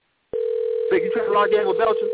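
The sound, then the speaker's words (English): A telephone call ringing through to an unset voicemail box: a steady, unbroken electronic tone hums throughout while a recorded voice speaks over it. “the person you called has a voicemail box that has not been set up yet”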